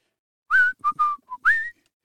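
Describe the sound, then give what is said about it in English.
A person whistling a short song melody, heard alone as five clear, bright notes in a quick phrase. The first and last notes are held longer and glide slightly upward. “That's a good whistling song.”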